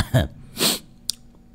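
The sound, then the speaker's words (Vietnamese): Coughing from a person irritated by cold air-conditioned air: two short, rough coughs about half a second apart, followed by a faint click, with no talking. “Tự nhiên ho quá. Điều hòa lạnh.”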